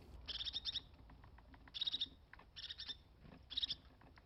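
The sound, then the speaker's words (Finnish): A small grey-brown bird with pale underparts calls in a wintry forest setting: four bursts of rapid, high-pitched chattering notes, faint, with brief gaps between them. “Tämän äänen kuulee todennäköisemmin metsässä, tosin näin talvella lintu voi myös uskaltautua pihaan metsän läheiselle ruokintapaikalle.”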